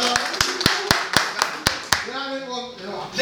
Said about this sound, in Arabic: عايز تشجيع وتسقيف